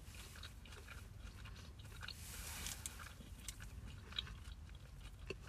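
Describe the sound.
Chewing of a crunchy snack bar with a thin caramel layer and crispy bits, faint but steady crunching and biting throughout, with a few slightly sharper crunches.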